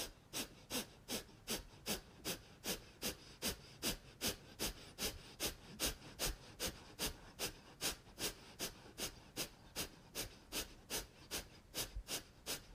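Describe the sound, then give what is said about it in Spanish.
Kapalabhati breathing during a yoga practice: a long series of rapid, forceful nasal exhalations in a steady rhythm of about two to three per second, with no talking. “Inhala de manera muy profunda. Y exhala Kapalabhati.”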